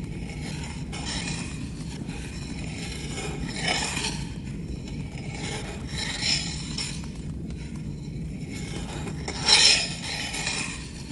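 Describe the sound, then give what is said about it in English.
A dagger blade is gently ground against a sharpening block resting on a small wooden bench, giving faint, slow rasping strokes that swell at uneven intervals over a constant low background noise. “gently grinds the edge of the blade against the sharpening block”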